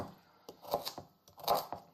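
Knife chopping carrots: several sharp, irregular cuts grouped in two short bursts, fairly quiet, with no other sound around them.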